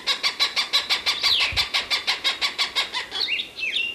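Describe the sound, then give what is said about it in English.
Cooper's hawk calling in a long, rapid series of harsh, evenly spaced cackling notes, then a few thinner squeaky chirps at the end. “Cooper's Hawk”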